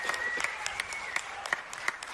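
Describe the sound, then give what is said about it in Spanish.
Applause from an audience for musicians playing quenas and other instruments at a live show: dense, steady clapping with a few sharper claps standing out, fairly faint throughout. “un aplauso, por favor, muy fuerte a Víctor Contreras y a Sergio Ramírez, que están en las quenas”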